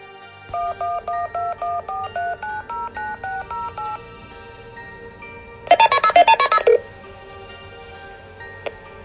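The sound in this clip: Touch-tone dialing of a phone number: a long, even string of short beeps at shifting pitches, then a quicker, brighter burst of tones. A single faint click follows.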